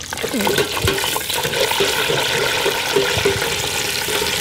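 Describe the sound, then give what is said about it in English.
Edible insects deep frying in oil with a pinch of salt: a dense, constant crackling sizzle that fills the whole clip at high level, with a voice talking over it. “Well, this is one of my favourite ways to have them. It's just deep fried with just a tiny wee pinch of salt.”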